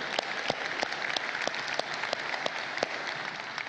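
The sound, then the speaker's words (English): An audience in a church claps steadily, a faint, even patter of many hands that carries on without pause for the whole stretch. “For those of you in the room, would you please give a big hand to our online and television audience?”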